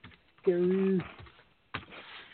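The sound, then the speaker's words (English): Typing on a computer keyboard, with a few scattered soft key clicks. A brief steady humming tone sounds partway through. “So, excuse my typing.”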